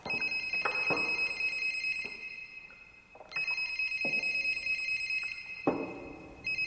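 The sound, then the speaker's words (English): A cell phone ringing with an electronic ringtone, a bright tonal phrase that repeats a few times with short gaps, over a steady low background noise. “Joseph grabs his cell phone and sees that it's Laura calling. Irritated, he stuffs the phone back in his pocket.”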